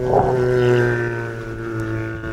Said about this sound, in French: Alors vous aurez peut-être reconnu la fameuse baleine à bosse. C'est un chant de mâle en pleine migration.